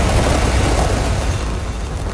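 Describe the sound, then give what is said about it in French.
A Falcon Heavy rocket roars at lift-off from Cape Canaveral, carrying NASA's Roman Space Telescope: one loud, continuous, deep rumbling roar with broad crackling noise that stays steady throughout, with no voices. “And lift off. Go Falcon Heavy and go Roman Space Telescope.”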